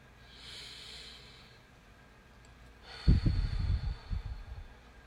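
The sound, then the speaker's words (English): A person takes a deep breath: a soft, airy inhale, a pause, then a louder, rough exhale with a snorting edge, with no talk around it. “And lastly, number five, take a breath.”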